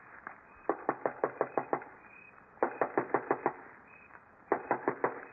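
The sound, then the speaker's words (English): Knuckles knock on a door in three quick bursts of several sharp raps each, separated by short pauses, fairly faint and with no voices. “Stand where you are, and I'll go knock on the door.”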